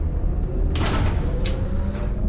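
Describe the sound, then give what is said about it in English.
An elevator door slides open with a few soft scraping bursts over a steady low hum. “I follow it to an open elevator. I step inside,”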